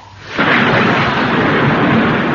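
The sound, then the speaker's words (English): Thunder breaks as a storm bursts: a sudden, very loud crack after a quiet start, then a dense, sustained roaring rumble that stays loud to the end. “But I must also tell you something about the weather. It's going to be pretty filthy. That's all right. I'm broad-minded. At that moment, the storm burst.”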